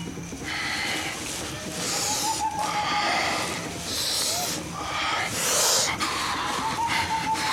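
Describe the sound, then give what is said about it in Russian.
Heavy, puffing breaths come in repeated noisy, rasping bursts every second or so over a dense low rumble. “Хватит пыхтеть! Я дышу!”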